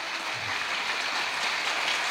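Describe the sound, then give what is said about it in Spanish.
A church audience applauds during an evening service, a continuous, even wash of many hands clapping in which no single claps stand out and no voices rise above it. “Aplauda al Señor en esta noche.”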